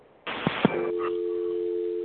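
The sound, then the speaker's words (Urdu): A phone line tone after a caller's call dropped: an abrupt burst with a couple of sharp clicks gives way to a steady, unbroken electronic tone that holds alone to the end. “Sorry آپ دوبارہ کال کر لیجیے, آپ کی کال drop ہو گئی ہے”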